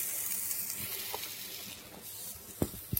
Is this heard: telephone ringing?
no